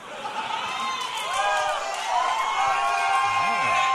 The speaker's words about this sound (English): These people are cheering in front.